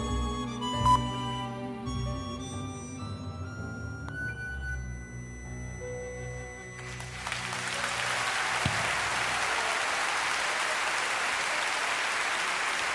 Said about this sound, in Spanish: En vivo, claramente, ahí se escuchan todos los aplausos